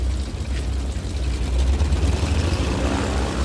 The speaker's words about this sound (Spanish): La pista hay un prototipo calentando motores. Tiene una sola ala con la carlinga entre dos motores de hélice.